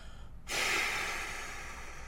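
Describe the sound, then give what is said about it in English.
A deep, forceful breath out bursts in after a brief quiet moment. It starts loud and airy, then eases slightly as it trails on for about a second and a half. “Another deep breath in and hold it, and a cannonball breath out.”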